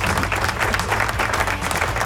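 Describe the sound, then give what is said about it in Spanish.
A short burst of crowd applause, dense and loud, runs steadily for about two seconds with a low rumbling undertone beneath the clapping. “¡Aplauso!”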